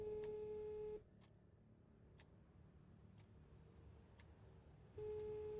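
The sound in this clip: Ringback tone of a telephone call being placed: a faint steady tone sounds for about a second, gives way to roughly four seconds of quiet line with light ticks, then starts again.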